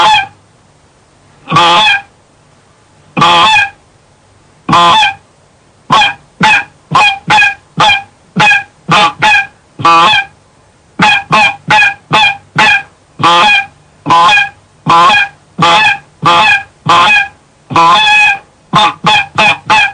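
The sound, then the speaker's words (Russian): Basic goose luring call of the kind heard in autumn and spring: a long series of many loud, sharp honks with no other sound. The honks come in sparse bursts at first, then quicken into a dense, irregular run. “то получится тот основной гусиный голос, который мы с вами часто слышим осенью и весной, и который будет наиболее ходовым в нашем процессе манения гуся.”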